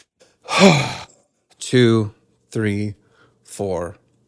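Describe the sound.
Slow breaths exhaled during a guided breathing exercise: four separate breathy, sighing exhalations with short silences between, the first noisier and longest, the later three shorter and more voiced.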